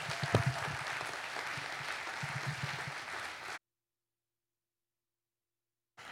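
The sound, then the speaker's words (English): Church audience applause welcomes a visiting pastor at a Glenwood Springs morning service, a steady, even clapping for about three and a half seconds before it cuts to silence. “And so if you'll open up your hearts and put your hands together, give them a warm Glenwood Springs welcome as Pastor Mark comes to minister to us.”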